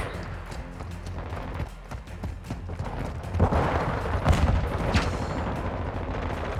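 Gunfire in a multiplayer shooter video game, including shotgun blasts, a few loud bursts rising out of the busy game noise in the middle and again near the end.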